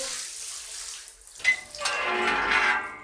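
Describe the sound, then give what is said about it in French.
Shower water running: a soft, breathy spray that dips briefly, then swells into a fuller, steady rushing hiss through the second half. “j'ai dit qu'il fallait sortir de ta douche maintenant”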